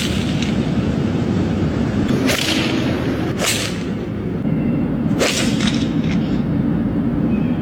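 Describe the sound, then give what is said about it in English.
Golf balls being struck into traffic and buildings in downtown Los Angeles, three sharp, loud cracks spaced a second or two apart over a constant noisy background. “A couple of guys in Los Angeles thought it would be funny to hit golf balls into traffic and buildings downtown. The internet has tracked them, and it's unclear if police will go after them. Here they are, smacking some golf balls.”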